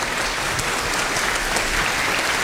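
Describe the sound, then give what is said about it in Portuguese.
Church audience applauding during a diploma ceremony: a dense, even wash of clapping that holds steady throughout, with no talk over it. “Uma salva de palmas para os nossos irmãos. Parabéns.”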